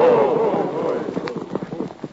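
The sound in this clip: Horses galloping, with rapid clip-clop hoofbeats that grow distinct and irregular through the second half over a steady rumbling background.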